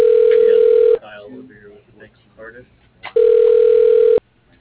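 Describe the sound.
A telephone dial tone sounds while a call is being placed: a loud, steady, unbroken tone heard in two separate stretches, with a brief patch of speech between them.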